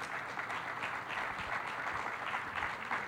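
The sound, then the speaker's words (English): A church audience applauds steadily as interviewees come up, a dense, even clapping heard alone without talk. “If you guys could help me and just give them a hand and kind of welcome them up.”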